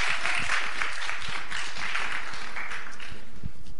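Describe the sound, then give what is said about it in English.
Audience applause welcoming a guest speaker at a church gathering: brisk, steady clapping from many hands, holding even before thinning out at the end. “give a big hand to Dr. Fahim Sadiq. Give a big hand. Make him feel welcome.”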